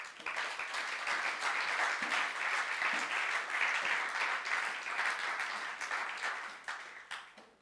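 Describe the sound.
Audience applause at a special service: dense, steady clapping from many hands runs unbroken for several seconds, then thins and fades toward the end.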